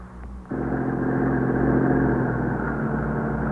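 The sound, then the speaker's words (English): An ambulance arriving at night outside an old tenement building, heard as a steady low engine rumble that steps up abruptly in loudness early on, then runs on evenly. “That's the ambulance, I guess.”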